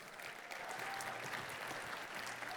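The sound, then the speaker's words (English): A church audience applauds a guest invited onto the stage, with faint, continuous clapping from many hands holding at an even level throughout. “So please welcome with me to the stage, Allie Carter from Young Life IUP.”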